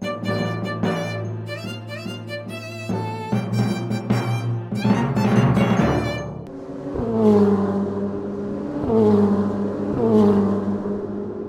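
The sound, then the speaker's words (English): Race cars at an automobile race: loud engine roar that swells and fades repeatedly as the cars rev and pass, with no talk over it. “Automobile racing? That's a thing? It is, and Americans love it.”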